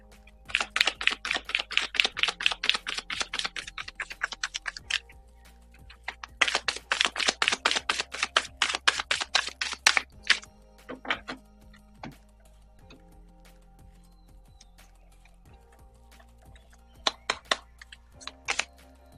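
Oracle cards being shuffled and drawn: two long bursts of rapid, papery clicking, then a few scattered flicks and a short final flurry, all quiet, with no talking.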